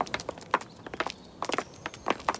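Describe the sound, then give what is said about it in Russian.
Boots thud on the ground as someone walks along, a quick run of many footsteps in uneven clusters, each a short crisp knock, with brief gaps between groups. “Я шел с ним рядом, скинув ватник, стуча сапогами.”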